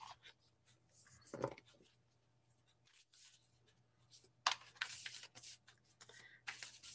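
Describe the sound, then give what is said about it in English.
Goddess oracle cards being handled and pulled from a deck: a few papery rustles and flicks in short bursts, with quieter handling noise between them. “Oops, I should have undone these before. Let's pull a goddess card, shall we?”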